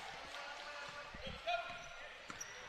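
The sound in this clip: A basketball is dribbled on a court during a game between Junction City and Mountain Home, a faint string of dull, evenly spaced thumps under a quiet background murmur.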